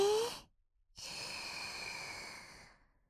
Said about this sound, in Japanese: まずは目を閉じてゆっくりと呼吸をしてみましょうか。吸って